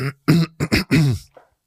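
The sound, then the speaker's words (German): Someone clears their throat, a few short, rough voiced bursts in quick succession, fairly loud and alone, fading out with a faint final grunt. “Also ich war jetzt kein dramaturgisches Räuspern, sondern ich musste mich einfach nur räuspern.”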